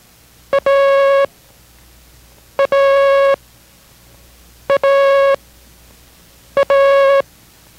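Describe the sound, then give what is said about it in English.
Morse code letter A as a tone: four repetitions of a short dit followed by a longer dah, evenly spaced, at a steady mid pitch with no other sounds. “do not memorize the letter A as being dot dash, but rather by the sound dida. Listen.”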